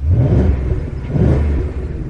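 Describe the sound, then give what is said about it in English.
A 450-horsepower V8 car engine revs with a deep, loud, steady rumble that swells slightly over a couple of seconds. “on a 450 horsepower V8 that sounds like this”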